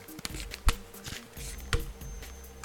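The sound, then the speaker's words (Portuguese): Tarot cards are unfolded and handled during an astrology reading, with two crisp snaps among soft papery shuffling and rustling. “Portanto, comecemos então pelo carneiro. Uh, ah, Deixei-me cá desdobrar as cartas.”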